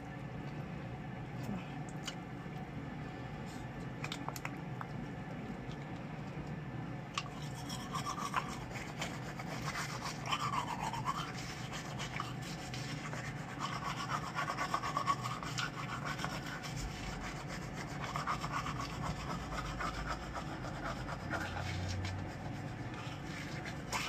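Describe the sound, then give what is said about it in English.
A toothbrush brushes teeth in steady, rhythmic scrubbing strokes that run without a break for the whole stretch, with no talking. “I'm gonna brush my teeth one more time because I know there's still food stuck in there along the way.”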